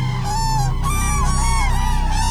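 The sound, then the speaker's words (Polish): Cranes calling over the Vistula: a few loud, trumpeting, honk-like calls overlap with sliding pitch, over a steady low drone. “Odpowiedział jej nie klekot bociana, ale klangor żurawi z nadwisły.”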